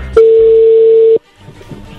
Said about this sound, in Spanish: Ahí se está marcando.